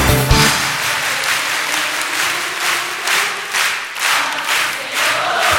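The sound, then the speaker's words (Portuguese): Church audience clapping hands in applause during a worship service: loud, dense clapping from many people, with a loose regular beat running steadily throughout. “Palmas pra Jesus. Palmas pra Jesus. Palmas pro Senhor. Você, palma.”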